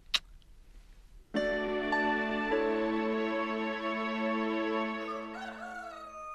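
A rooster crows at first light on a farm, one long, loud, richly harmonic call that begins after a brief faint sound and holds strongly for about five seconds before tapering slightly.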